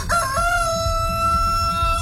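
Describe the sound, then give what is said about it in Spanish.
A rooster crows, its loud harmonic call starting sharply and then drawn out in a long steady tone over a low background rumble. “Entonces ese gallo se las pega.”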